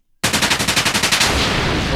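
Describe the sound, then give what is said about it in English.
A machine gun sound effect fires a rapid, evenly spaced burst of many loud shots, then a sustained roar that carries on to the end. “You can't even use gun sound effects?”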